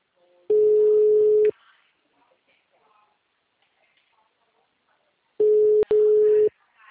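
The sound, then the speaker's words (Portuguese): Two long, steady ringback tones on a telephone line during a call, each lasting about a second and separated by a pause of several seconds. A sharp click briefly breaks the second tone, and faint background noise fills the gap. “Está conectado e ligando.”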